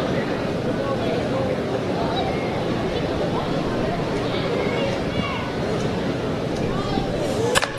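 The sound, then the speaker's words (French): A bat strikes a baseball solidly during a game, giving one sharp crack near the end over steady crowd noise and a commentator talking. “Oh, la balle est frappée solidement en lieu sûr au champ gauche.”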